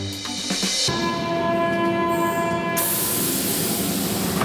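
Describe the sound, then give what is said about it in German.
A Berlin U-Bahn underground train near Platz der Luftbrücke station gives off a loud, steady rumble with sustained electric whining tones. The sound grows brighter and hissier partway through and continues without a break. “Ihr hört das hier im Hintergrund. Wir sind mit der U-Bahn bis Platz der Luftbrücke gefahren”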